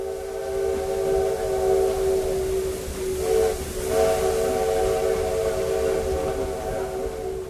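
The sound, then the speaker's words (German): A small tourist train sounds a steam whistle as it arrives at a town station. The steady tone holds almost throughout and dips briefly midway, over hissing steam and a low rumble of the rails. “Vor der geschichtsträchtigen Kostprobe steht eine kurze Reise mit einer Bimmelbahn. Nach einer halben Stunde fährt sie in den Bahnhof von Tiradentes ein.”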